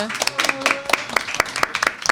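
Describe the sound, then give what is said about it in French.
Evening audience applause for a masked guest speaking into the microphone for the first time. Scattered, distinct hand claps come irregularly at a moderate level, with talking over them. “Oh là là, on l'applaudit pour sa première fois.”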